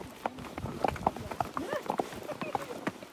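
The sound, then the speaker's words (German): Horse hooves clip-clop on a mountain trail in the Swiss Alps, many steady, rhythmic hoofbeats running through the whole stretch. “Und so wandern wir im Takt der Hufe.”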